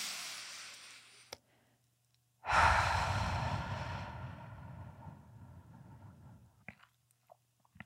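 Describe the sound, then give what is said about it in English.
A deep breath taken during a guided calming exercise: a softer breath first, then after a pause a long, loud, airy breath that slowly fades away, with a few faint clicks around it and no talking. “And then we're going to take a deep breath together.”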